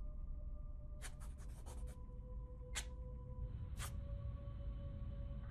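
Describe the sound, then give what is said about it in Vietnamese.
Dry scratching of a small piece of red brick scraped back and forth on a porch floor while scribbling marks. A quick cluster of faint scrapes is followed by two isolated strokes over a low background hum. “Tay của Mị cứ như vậy đưa qua đưa lại mẩu gạch trên hiên nhà, tạo thành những tiếng loẹt xoẹt.”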